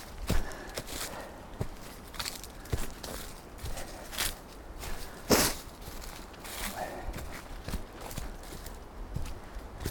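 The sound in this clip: Footsteps of someone stepping sideways in small steps down a slippery trail on a waterfall hike: many faint, irregular scuffs and crunches over a steady background hiss, with no talk.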